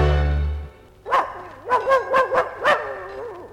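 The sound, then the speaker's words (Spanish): A dog barking: a quick run of several sharp, tonal barks with slight yelping inflections, coming after a low sustained tone fades out. “Pero si se calla ese perro, así yo puedo hablar. Fuera, perro, hombre. Tírenle un hueso a ese perro.”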